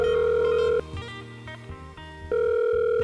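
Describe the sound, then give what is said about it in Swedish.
Ringback tone of an outgoing telephone call: two loud, steady buzzing tones with a fainter, shifting tonal sound between them. “Testa och ring GV.”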